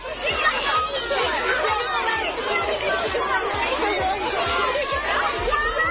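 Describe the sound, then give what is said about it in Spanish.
Children chattering at school on the first day back, a dense, steady babble of many young voices talking over one another, loud and unbroken throughout. “Pero este es el sonido de la mañana, la vuelta al cole para 8 millones de niños.”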